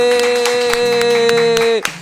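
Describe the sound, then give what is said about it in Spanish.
Applause from an applause machine on a Spanish-language studio show: sparse, loud claps spaced through a sustained tone that cuts off near the end, followed by one last sharp hit. “Nos faltaron los aplausos, ¿y dónde están los aplausos?”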